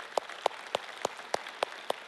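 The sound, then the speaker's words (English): Audience applause at a church service: sparse, evenly spaced claps, about seven sharp bursts in a steady rhythm, fairly faint and with no talk over them. “Yes, let's applaud for that.”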